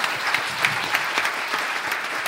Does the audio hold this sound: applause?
yes